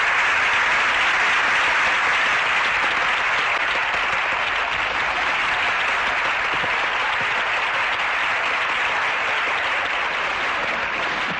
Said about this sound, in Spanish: estupendo aplauso y bien merecido.